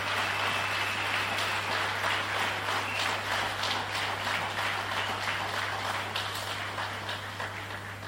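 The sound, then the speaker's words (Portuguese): Crowd applause at an awards ceremony honoring young people, a rain-like patter of many hands that gradually thins and fades over its length, with a steady low electrical hum underneath. “Por isso, mais uma vez, uma grande salva de palmas para esses jovens.”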